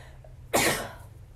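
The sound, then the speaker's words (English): A single sneeze bursts out sharply and loud, then tails off quickly into quiet, with no talk around it. “I think the sneezing is a good sign.”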